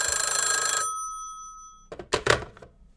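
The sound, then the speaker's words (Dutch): A telephone rings with a bright electronic trill as a call is placed. The loud ring stops and fades out, then a few short clattering knocks follow. “Dus die ga ik bellen”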